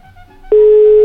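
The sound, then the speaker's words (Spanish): A steady telephone line tone sounds as a call connects. It begins abruptly about halfway in and then holds loud and unbroken at a single pitch until the end. “Yo escucho Radio Gallito y listo, dejen que se enlace la llamada. Una vez que se enlace la saco al aire. Ya se enlazó, la sacamos al aire.”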